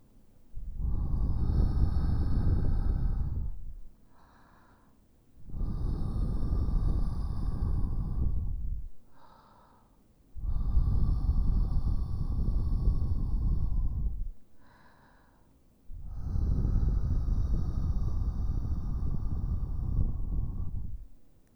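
Soft breathy blowing into the ear during an ASMR ear-cleaning roleplay comes as four long, gentle airy blows of several seconds each, separated by short pauses with faint breaths.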